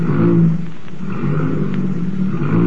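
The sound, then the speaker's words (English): A car engine runs with a steady, loud low drone and a rich hum, its level dipping briefly before rising again. “I'll just step inside here and see how the motor sounds.”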